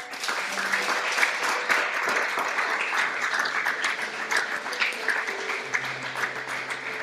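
An audience applauds during a church service, giving a steady, dense burst of many hands clapping at moderate loudness that continues throughout without a break.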